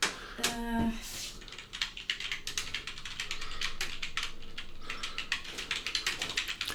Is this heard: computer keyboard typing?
yes